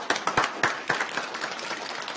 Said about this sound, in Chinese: 大家伙儿鼓鼓掌。